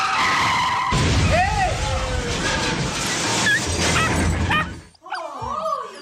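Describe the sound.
A chauffeur-driven Cadillac's tyres screech in a long skid, squealing tones sweeping up and down, ending in a crash near the close, followed by a dog's short whimpering cries.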